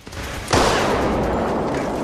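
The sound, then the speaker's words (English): A single gunshot in a tense dramatic confrontation: one sharp, loud crack about halfway in, followed by a sustained wash of broad noise that lingers to the end without fading. “Tony walks off towards Litvak. Emerson follows Jack, then grabs him, holding a gun to his head. Tony shoots Litvak.”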